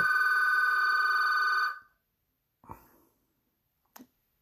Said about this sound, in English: I can't believe the phone is ringing, but that's okay. Let it ring. Someone's calling, but I don't know who